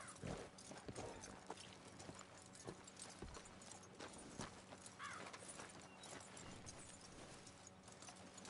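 Horse hooves clip-clop in the video game Red Dead Redemption 2, a steady walking rhythm of hoof strikes running throughout over a dense, busy game soundscape.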